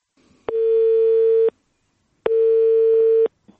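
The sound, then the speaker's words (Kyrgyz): Telephone ringing tone as a call is placed: two long, identical one-second beeps at the same steady pitch with a short silence between them. Loud and free of talk, with a faint click at the end. “биз ага телефон чалдык”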